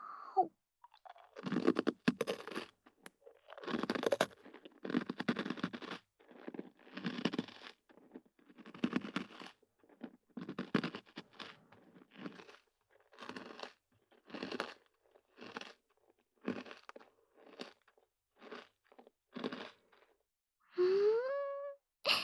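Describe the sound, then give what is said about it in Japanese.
Crisp crunching and chewing of a famous Asakusa snack sounds as many short, dry bursts in an irregular rhythm, quiet and close, with brief silent gaps between bites. “これ、浅草の有名なお菓子なんです。どうぞ、お一つ。私も、いただきまーす。”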